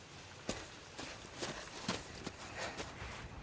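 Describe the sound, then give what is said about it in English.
Footsteps of people walking into a minefield: many soft, crunching steps in a steady walking rhythm, faint against a constant hiss. “Marcus follows her into the minefield. She steps confidently forward, and he follows a short distance behind.”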